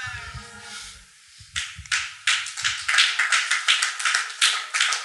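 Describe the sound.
Audience clapping during a church sermon: after a quiet, low opening, dense rapid hand claps break out and build into steady, loud applause that carries on to the end.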